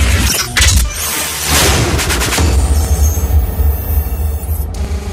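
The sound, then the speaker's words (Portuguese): A cannon fire sound effect played through loudspeakers by a DJ at a live party: a few heavy, booming blasts at the start, then sustained, loud rumbling noise. “Toque algo que me lembre o som dos canhões.”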